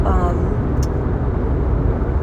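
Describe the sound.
Car cabin noise while driving: a constant low engine-and-road rumble with a faint hiss above it, steady and unbroken.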